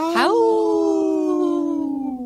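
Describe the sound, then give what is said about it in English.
A person howls like a wolf: one long voiced howl that swoops sharply upward at the start, then holds a steady, slowly falling tone for about two seconds, loud and alone. “Howl. That was a good howl.”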